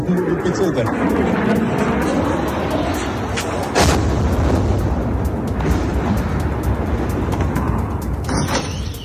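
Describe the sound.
Street sound in Kyiv during a Russian drone and missile attack: a dense, continuous roar of rumbling noise, broken by one sudden louder burst partway through, then carrying on unchanged.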